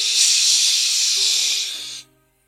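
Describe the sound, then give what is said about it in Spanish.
Loud, steady hiss of steam escaping under pressure, heard during a fantasy tabletop role-playing game. A sustained rush lasts about two seconds, then cuts off abruptly, leaving a faint low hum. “Se empieza a salir un montón de, de vapor a presión.”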